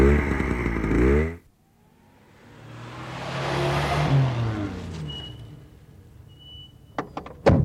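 A motorcycle engine is switched off: its steady, rumbling running note cuts out abruptly. A swell of broad noise follows, then a few sharp clicks near the end.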